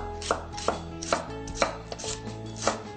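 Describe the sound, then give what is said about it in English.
Knife slicing through a fennel bulb, with a handful of crisp, distinct chops at a slow, fairly even pace and no talk. “Get that sliced up.”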